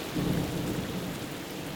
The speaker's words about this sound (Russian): Начинается гроза.